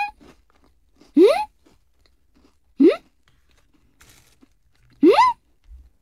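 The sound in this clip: Crunchy chewing of cheese studded with dried fruit, peanuts and coconut, gritty in texture: three loud, separate bites with quiet gaps between them.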